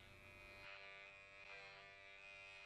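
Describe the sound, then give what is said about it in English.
An electric razor buzzes steadily through a morning shave, a continuous droning hum with a bright harmonic edge that holds an even level throughout, with no voices. “Next morning. I presume it's the next morning. It's shaving time.”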